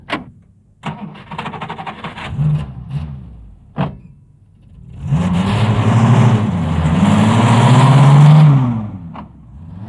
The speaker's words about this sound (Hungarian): adj gázt!